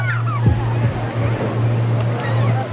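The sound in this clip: Tsunami waves surging toward a shore where tourists stand, a continuous rushing wash over a steady low hum, with a voice speaking over the water.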